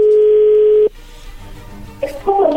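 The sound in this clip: Telephone ringback tone as an outgoing call to a home is being placed, a single steady, fairly loud tone lasting nearly a second before cutting off into low line noise, with a brief voice appearing near the end.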